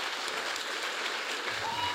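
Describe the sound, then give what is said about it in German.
An audience applauds to welcome a poet on stage at a poetry event, giving an even, continuous patter of clapping at moderate loudness for the whole clip. “kommt jetzt uns ans Mikrofon unter eurem Applaus”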